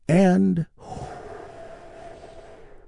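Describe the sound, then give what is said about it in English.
A deep, slow guided healing breath: after a brief loud vocal sound, a long, soft, airy breath flows steadily in and out at low volume until the end. “Let's take another big, deep, healing breath together. Here we go.”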